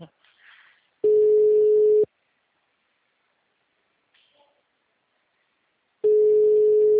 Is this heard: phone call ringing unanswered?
yes

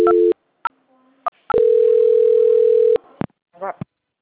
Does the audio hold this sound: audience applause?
no

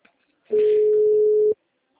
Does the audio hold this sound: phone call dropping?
yes

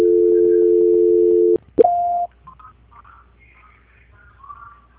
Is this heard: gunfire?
no

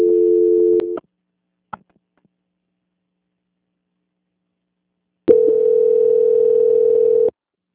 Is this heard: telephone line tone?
yes

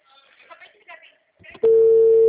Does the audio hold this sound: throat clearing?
no

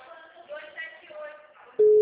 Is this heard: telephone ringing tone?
yes

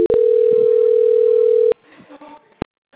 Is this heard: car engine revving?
no

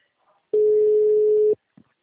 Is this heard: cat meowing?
no

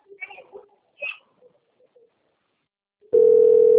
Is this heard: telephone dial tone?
yes

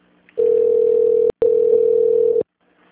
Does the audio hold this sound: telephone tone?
yes

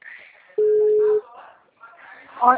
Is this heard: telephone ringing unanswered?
yes

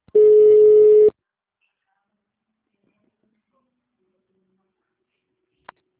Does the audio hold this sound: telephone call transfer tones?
yes

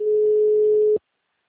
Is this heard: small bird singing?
no

